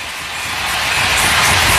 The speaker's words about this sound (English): Vladar hearing it from the fans of the Xfinity Mobile Arena.